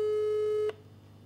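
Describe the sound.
A telephone tone sounds while a call to a friend is placed: one steady, mid-pitched electronic beep that holds for under a second, then cuts off abruptly, leaving faint hum.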